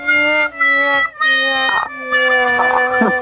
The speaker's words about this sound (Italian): è un labrador che diventa un dottore onorario.